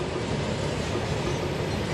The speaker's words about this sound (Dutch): Dit is de langste trein ter wereld, zeggen ze. 3 kilometer aan wagons. Deze trein torst tonnen aan staal en gooit je op en neer als een tanker op een woeste oceaan.